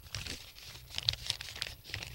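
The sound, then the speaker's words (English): Paper envelope being torn open: faint, brief crinkling and ripping bursts set against quiet background noise. “Uh-oh, you're opening up your envelope.”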